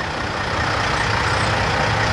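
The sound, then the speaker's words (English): Heavy truck engines at the world's largest truck stop, on Interstate 80 in Iowa near the Illinois border, with parking for 900 big rigs: a steady, dense, low rumbling drone without break. “Along Interstate 80 in Iowa, near the Illinois border, is what calls itself the world's largest truck stop, with parking for 900 big rigs.”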